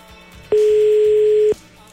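A telephone ringing tone on an outgoing call: one steady, loud, mid-pitched buzzing tone that lasts about a second, switching on and off abruptly, with only a faint low background hum before and after.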